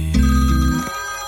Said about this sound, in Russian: Тихо, опять моя звонит.